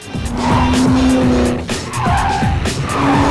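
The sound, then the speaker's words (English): Tires squeal loudly as a BMW speeds around a corner on a street during a car chase. The engine roar and skidding squeal run steadily through the whole clip. “They speed around a corner, narrowly missing a couple of pedestrians.”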